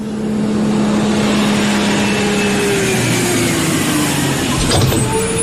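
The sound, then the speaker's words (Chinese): A bus pulls up and comes to a stop, with a loud, steady engine rumble throughout and a brief sharper burst near the end. “车来了，时间不早了，大家赶紧上车，都上车。”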